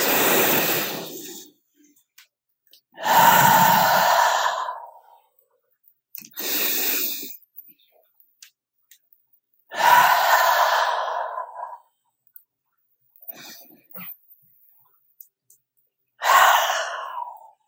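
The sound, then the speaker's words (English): Full, deep breaths in and out during a guided relaxation exercise, several long airy breath sounds separated by silent pauses, each swelling and fading, with a few softer short breaths in between, no talking. “Allow yourself to take a few more full-bodied breaths in and out, noticing your chest rise and fall.”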